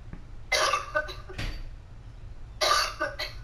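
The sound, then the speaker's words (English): A person coughs a few times, rough, breathy bursts separated by short pauses, fairly faint and heard alone. “excuse me, I had a cough.”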